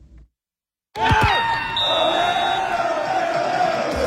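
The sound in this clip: Soccer fans chant during a FIFA World Cup match in Vancouver, a loud sustained crowd roar of many voices with held, sung tones that bursts in after a moment of silence and carries on steadily.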